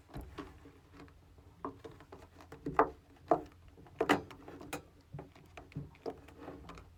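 Plastic clicks and rustling as someone works at the lid of a soup container full of broth. A few sharp clicks stand out from faint, scattered handling noise.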